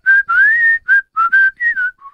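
A person whistles a quick run of short, loud, bright notes that mostly hold one pitch, with a slight upward glide in one note, ending on a softer, lower note.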